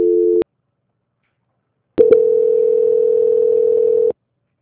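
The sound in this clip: A telephone tone during a call transfer: a short steady beep, then silence, then a couple of clicks and a long, steady, unbroken tone lasting about two seconds before cutting off abruptly.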